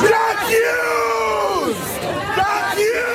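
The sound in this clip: Several dozen protesters in Manhattan, outside a newspaper's building, loudly yell and chant the French phrase 'J'accuse' over and over. The massed voices rise and fall in a repeating shouted rhythm with no break.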